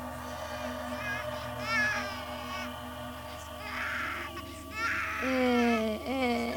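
A fretful infant cries in short wailing bursts, a feverish baby that will not settle to sleep; the cries rise and waver in pitch and grow loudest near the end, with other sounds in the background.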